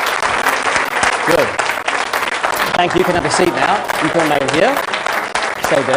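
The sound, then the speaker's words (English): An audience gives a steady, dense round of applause with many hands clapping at once, loud and continuous throughout. A person talks briefly over the clapping. “Give him a round of applause for that.”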